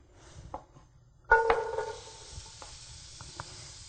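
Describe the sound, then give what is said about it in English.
Onions drop into warmed olive oil in a pan, and a sudden loud hiss and sizzle bursts out after a quiet start, then settles into a fainter, steady sizzle with a few crackles. “Get the pan warmed up here. We'll put about 2 tablespoons of olive oil. And we'll add the onions to it.”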